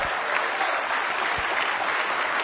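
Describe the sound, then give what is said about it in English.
Church audience clapping their hands together during a lively worship service, a dense, steady wash of applause that holds at an even, fairly loud level from start to finish with no voices. “Give the Lord a big hand clap.”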